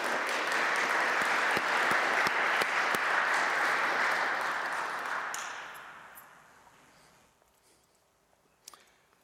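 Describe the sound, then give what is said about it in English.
The audience at a Lenten mission in a church applauds the Lord with loud, dense clapping that holds for about five seconds, then dies away to near silence with a few faint clicks. “Can we applaud the Lord for that? That's the greatest thing.”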